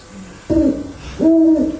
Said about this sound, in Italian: E ci sono i gufi. Montano la guardia di notte. Loro vedono anche di notte.